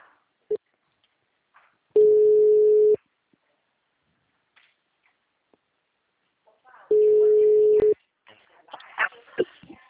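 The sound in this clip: Telephone ringback tone on an outgoing call: two steady mid-pitched tones, each lasting about a second, separated by a long silence, then a voice begins talking at the end.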